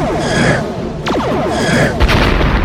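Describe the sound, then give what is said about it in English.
Photon torpedoes are fired from a sci-fi starship in a space battle: two loud synthetic whooshing blasts, one with a quick downward pitch sweep, the second ending in a deep boom. “Armed photon torpedoes. Torpedoes armed and ready, sir. Return fire.”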